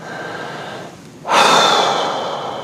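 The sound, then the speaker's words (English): A deep breath: a soft airy hiss, then a sudden loud, rushing breath that holds and slowly fades. “I would strongly encourage you to take a deep breath.”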